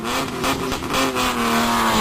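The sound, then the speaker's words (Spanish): Loud rally car engine revving at a rally held on the city streets and roads of Oviedo, with rapid repeated surges of throttle and a harsh, throaty tone, heard alone without talk. “Oviedo vibra con el motor. Llega el Rally Princesa de Asturias, Ciudad de Oviedo.”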